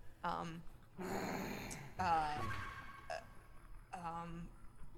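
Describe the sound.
A human voice imitates a low, possessive growl, like a creature crouched over a body it guards. Several rough, raspy voiced bursts mix with breathy noise, fairly faint.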